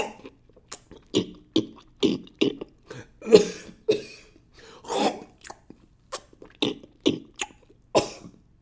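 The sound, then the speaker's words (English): A man's voice imitates someone coughing while eating popcorn: many short, harsh coughing and chewing bursts in an uneven rhythm, with no other talk. “He's, like, eating popcorn and coughing at the same time.”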